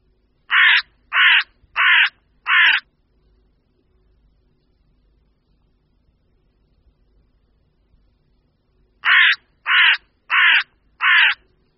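Hooded crow cawing: two bursts of four harsh, evenly spaced caws, with a long quiet gap between the groups. The calls are loud and clear against near silence.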